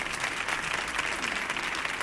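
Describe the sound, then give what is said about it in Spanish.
Audience applause for a guitarist returning to the stage: dense, steady clapping that fills the whole stretch at an even, fairly loud level. “también otro aplauso para el guitarrista, también por favor, Alejandro Suárez, que vuelve al escenario otra vez.”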